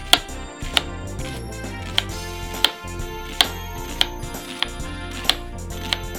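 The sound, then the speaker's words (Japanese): A knife slicing an onion on a cutting board makes a steady series of sharp, evenly spaced taps over continuous background music. “玉ねぎをまずスライスしていきます。”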